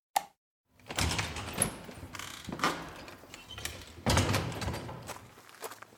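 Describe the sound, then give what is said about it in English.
Homemade garden gate being opened: a clattering, rattling mechanical sound with a few sharper knocks, continuing for several seconds at a moderate level after a brief tap and a short pause. “I do like this gate that you and Queenie built. Here, let me open it up for you and we'll head into the garden.”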